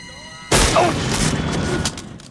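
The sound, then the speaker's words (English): A sudden loud gunshot blast during a gun battle at a building, cutting in after a steady musical tone. Its roar then lingers and slowly decays. “Alex fires one last round as Chad looks up, and the red light follows the movement up to his face.”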